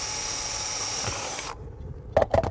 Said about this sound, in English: I'm gonna drill a couple of holes in here, as starter holes,